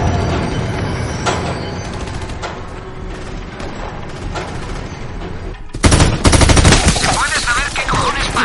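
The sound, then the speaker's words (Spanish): Gunfire as men shoot at a patrol car: a run of sharp cracks over a dense rumbling bed, turning suddenly louder and harsher in the final seconds. “Los hombres disparan al coche patrulla mientras Barry y Facebook observan la escena desde lejos.”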